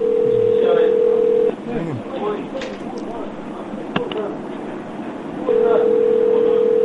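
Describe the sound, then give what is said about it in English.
A telephone ringing on a call line as a steady low tone that lasts about a second and a half, gives way to people talking, then comes back near the end. “I like your phone. Your phone goes ringy, ringy, ringy.”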